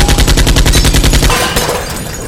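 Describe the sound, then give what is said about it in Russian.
A long burst of automatic gunfire from a weapon fired around a doorway inside a laboratory: a loud, rapid string of evenly spaced shots lasting over a second, then a fading tail. “Там он встал под стеной, выставив оружие из-за косяка и дал длинную очередь.”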